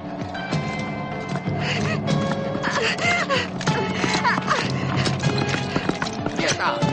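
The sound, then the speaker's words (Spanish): A horse gallops as its rider chases a young woman running in circles in a 1983 adventure drama film. Steady, rhythmic hoofbeats pound throughout, and a whinny is mixed in. “Pedro persigue a caballo a una joven que corre en círculos intentando esquivarlo y que lleva una hoz en la mano.”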